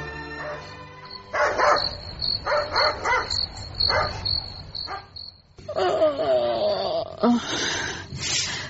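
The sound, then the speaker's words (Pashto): A dog barks in the middle of the night, giving a rapid series of sharp barks in short clusters. A steady high chirring of crickets runs underneath throughout. “ګورم چې دا سپی ولې غاپي.”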